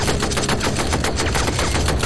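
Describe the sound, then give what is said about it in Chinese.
A British Vickers machine gun sweeps fire during an infantry advance across trenches: loud, continuous rapid fire, a dense rattling roar that stays at full strength throughout with no pauses. “然后停下来，利用维克斯机枪前后左右扫射，”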